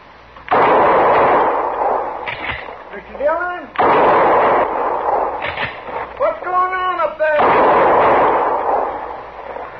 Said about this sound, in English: Somebody was shooting at me, Chester.